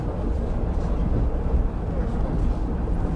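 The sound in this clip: A local passenger train running, heard as a steady, dense low rumble with rattling noise that holds at an even level throughout, without clear breaks or separate events.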